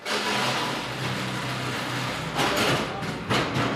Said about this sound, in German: Wir hören eine riesige Halle von Daxa